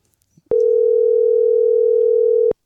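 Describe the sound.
A single telephone ringback tone plays while a call is being placed: one steady, mid-pitched tone with a slight beating warble, lasting about two seconds and starting and stopping abruptly, with no voices.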